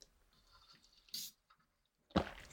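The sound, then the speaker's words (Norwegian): Sipping lukewarm, very sour lemon water with Himalayan salt through a straw: two short, wet slurping bursts separated by quiet, with faint clicks between them. “Og den er skikkelig sur i dag, og jeg drikker også med sugerør for å skåne tennene mine.”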